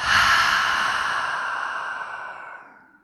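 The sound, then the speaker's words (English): A deep breath taken in and then released through an open mouth as one long, airy exhale. The exhale is loud at first and slowly fades away over about three seconds, with no talking. “Let's take a huge breath in, open the mouth, and exhale it out.”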